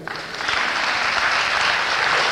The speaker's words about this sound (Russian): Аплодисменты.